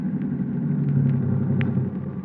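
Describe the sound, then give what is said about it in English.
A car engine rumbles low and steady throughout, easing slightly near the end as the car pulls up and stops; no voices are heard. “Stop the car.”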